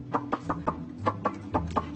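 Chickens cluck while being fed a rich mix of feed, seasonings and herbs, giving a run of short, bright clucks in an uneven rhythm over a low, steady background hum.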